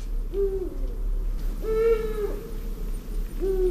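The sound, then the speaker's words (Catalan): A Eurasian eagle-owl pair, male and female, calling: three deep, quiet hoots spaced about a second and a half apart, each one short and low, with soft background hiss between them. “És el mascle i la femella, que és més agut. Això és la femella, aquest és el mascle. O sigui, estan parlant. Sí, deuen estar fent parades, o sigui, estan interactuant. És una mica misteriós, no? Això del duc.”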